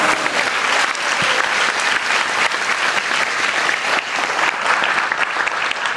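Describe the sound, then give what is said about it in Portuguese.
Audience applauding the Lord during an evangelical church service: a continuous, loud wash of clapping from many hands, steady and unbroken from start to finish. “Você pode aplaudir o Senhor por isso?”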